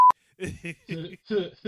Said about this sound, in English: I'm gonna have to beep that out